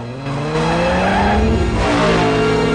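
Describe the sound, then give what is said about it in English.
A car engine revs hard as the car speeds off in a chase, its loud droning pitch climbing steadily, with tyres squealing under the acceleration. “Dom drives away as Brian runs over to his car, gets in, and speeds off after him.”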